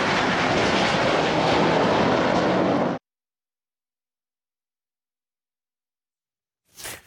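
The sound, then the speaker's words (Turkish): An F-16 fighter jet flying an aerobatic display over the city of Girne roars loudly and steadily for about three seconds, then cuts to silence, followed by a short swell of noise at the very end. “Girne kenti semalarında F-16 savaş uçağıyla akrobasi gösterisi sergileyen Solo Türk, vatandaşların beğenisini topladı.”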